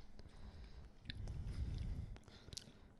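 Someone chewing a chocolate cookie: soft, moist crunching and munching with a few sharper bites, fairly faint and steady for about three seconds, with no talking.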